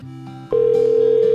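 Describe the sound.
Telephone line after the caller hangs up: a quiet low tone, then a click and a loud, steady, unbroken line tone that holds to the end.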